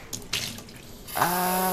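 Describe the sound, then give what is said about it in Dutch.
Tap water filling a water bottle: a few brief splashes give way to a steady, moderately loud stream with a ringing, tonal quality in the final half. “Ik ga mijn waterfles ehm, vullen.”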